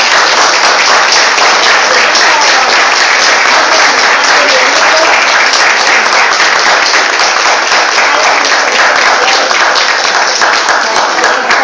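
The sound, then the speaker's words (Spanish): Audience applause for the teachers at a lecture event: loud, sustained clapping from a crowd, a dense, even roar of many hands that runs steadily for about twelve seconds without breaking. “le damos un gran aplauso a los profesores.”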